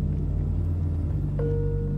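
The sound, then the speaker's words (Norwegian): Steady low rumble of a car driving on the road from Keflavík international airport toward Reykjavík. Engine and road noise drone evenly throughout, and a thin, steady high tone joins partway through. “Vi sitter i en bil og kjører fra Keflavík, internasjonale flyplass, flyplassen i Reykjavík.”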